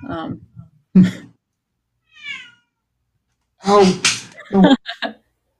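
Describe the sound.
A house cat screams in a few harsh, loud yowls, with a fainter, higher meow between them.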